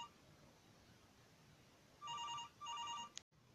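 A telephone rings for an incoming call: two bursts of bright electronic trilling, then a sharp click and abrupt silence.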